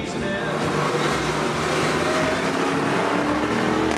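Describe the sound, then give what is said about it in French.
Engine of a Jaguar sedan driven hard on a racing circuit, a car its designers call a GT3 sedan: a loud, steady, buzzing drone with strong tonal harmonics that holds for the whole moment. “Vraiment une auto avec laquelle on peut s'amuser sur circuit et certainement aller chercher des Porsche ou autres Ferrari.”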